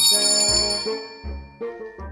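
A bell rings out in bright metallic tones, struck several times in quick succession, each strike loud with a lingering shimmer.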